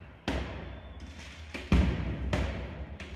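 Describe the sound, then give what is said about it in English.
Heavy thuds and bangs from a Paris May Day street riot as protesters hurl projectiles and incendiaries. A few sharp, loud impacts burst out over a constant rough background din. “Yeah, they're just throwing flammables, projectiles, incendiaries. Speech doesn't really work out well for them. That's just what you hear in the background there. That was a street scene in Paris earlier today.”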